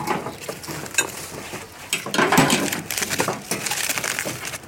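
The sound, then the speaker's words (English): Metallic clattering and scraping as a metal grill grate is lifted off hot food parcels on silver foil before they go onto plates, a busy, continuous jangle of clinks and rattles with no voices. “Just removing the grate so that I can pull them off to the plates.”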